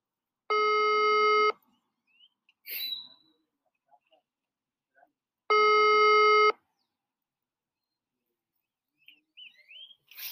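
Ringback tone of an unanswered telephone call: two steady electronic tone bursts, each about a second long, separated by a gap of several seconds, with faint scattered small noises between them.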